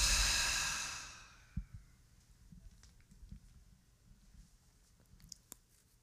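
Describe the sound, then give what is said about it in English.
A deep breath let out during a guided breathing exercise: a long, full, breathy exhale that fades away over about a second, followed by near silence with a few faint clicks. “Let's take two more of those. Deep breath in. Letting it go.”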